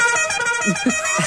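A car horn honks in one steady, sustained blare that fills the whole moment, its bright, buzzy tone holding level without breaks.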